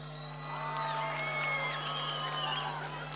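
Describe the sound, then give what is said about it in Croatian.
Audience cheering and whooping at a live event: a continuous roar of crowd noise with high whistles and shouts rising and falling throughout. A low steady hum sits underneath. “Još jednom veliki aplauz!”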